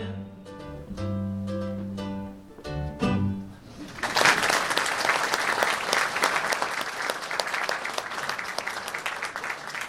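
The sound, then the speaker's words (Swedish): A live audience breaks into loud, sustained applause at a festive stage show, a dense wash of clapping that follows a short musical passage and keeps going steadily to the end. “Tack för det, och mycket väl klappat måste jag säga.”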